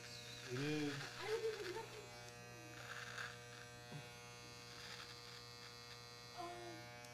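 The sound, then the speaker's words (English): Electric hair clippers drone with a steady, harmonic-rich buzz, used to trim eyebrows. The sound is faint and continuous, with voices briefly speaking over it. “Shit, those clippers suck.”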